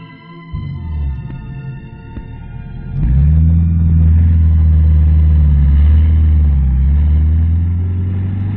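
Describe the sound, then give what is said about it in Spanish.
A pickup truck's engine sets off again along a dusty road: a low engine sound starts, then at about three seconds it revs up into a loud, steady drone with a slightly wavering pitch. “La camioneta reemprendió la marcha por el polvoriento camino.”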